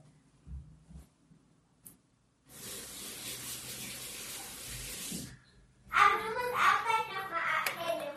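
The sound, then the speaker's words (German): Water runs steadily from a tap as someone washes their hands in the kitchen while baking a Japanese cheesecake, a constant hiss lasting about three seconds before it stops and a brighter, busier patch of sound follows. “Ich wasche mir nochmal die Hände.”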